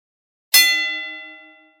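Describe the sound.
A single gong strike opens a bout, a bright metallic clang with a long, shimmering ring that fades steadily over more than a second, heard alone without voices.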